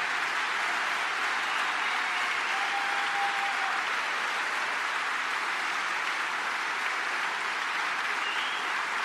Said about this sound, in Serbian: Molim vas, ako može još jedan burni aplauz za kolege.